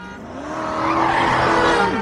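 A car drives hard along a road with a rising engine whine, and tire squeal and skidding blend into a loud, continuous roar that swells slightly partway through, with no voices.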